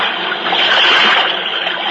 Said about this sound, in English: The Los Angeles River rises to meet us, and the happy waters cascade down the mountains.